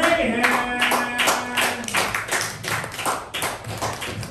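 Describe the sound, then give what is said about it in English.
Applause for the host of an open mic at the Madhouse Brick Room, scattered, distinct claps and taps from a small audience rather than a dense roar, moderately soft. “please start with a round of applause for your host, Aaron”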